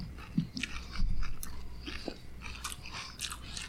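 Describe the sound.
Crunchy chewing of pumpkin spice Mini Wheats cereal, with quiet, irregular bites and crackling crunches repeating over a few seconds and no talk.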